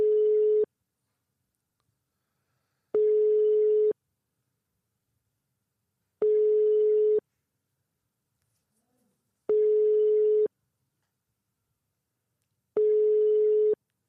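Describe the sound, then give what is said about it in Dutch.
Telephone tone heard while a call is being placed: five steady, mid-pitched electronic beeps of about one second each, separated by even silent pauses, with no talk. “We gaan bellen met Bassie.”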